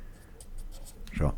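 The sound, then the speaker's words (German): Handwriting with a pen on paper, faint scratchy strokes in short bursts, followed near the end by a brief voice. “Ich schreib das jetzt auf hier, hörst du”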